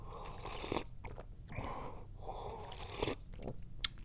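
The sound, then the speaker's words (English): A person sips the day's first cup of tea, served at just the right temperature: a few soft, wet slurping bursts in separate groups with short pauses between them, faint and with no talking. “before we do anything, I gotta drink some tea. This is the first tea I have drank today.”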